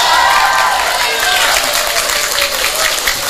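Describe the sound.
Audience applause at a Javanese-language talk, dense and loud, with continuous clapping and crowd noise mixed in throughout.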